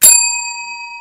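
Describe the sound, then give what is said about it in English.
A single bright bell ding, used as a sound effect, struck once and left ringing with clear overtones. The sharp attack fades into a steady, slowly decaying tone that sounds alone. “give her a better bell than that”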